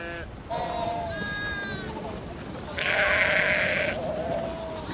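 Sheep and lambs bleat at turnout to pasture: many overlapping calls, some high and quavering and others lower and longer, sound loudly and without pause over a constant background rush.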